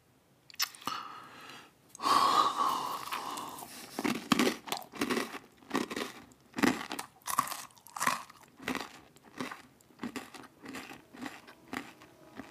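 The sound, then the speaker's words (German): Shoes crunch on gravel in a deserted city park, a long run of gritty footsteps at a steady walking pace, each step a short rough crunch. “Der Kies knirschte unter den Schuhen.”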